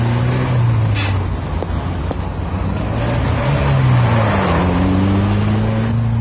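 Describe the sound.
A four-cylinder car accelerates with a steady, loud engine drone over road noise. The engine note dips briefly, then climbs in pitch toward the end.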